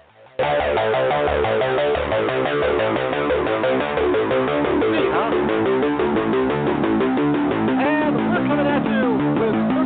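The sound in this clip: A band's song playing as the opening theme of a wrestling call-in program: loud, dense, continuous music that starts abruptly after a brief quiet moment and carries on steadily throughout.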